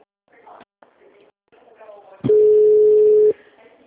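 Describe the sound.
Ringback tone while a call is placed to a family-health association: one long steady beep follows faint, brief voices and clicks, then cuts off into quiet.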